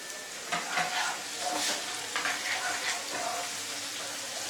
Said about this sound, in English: And little ginger, also nicely cut it. Just a little. We put everything in the oil.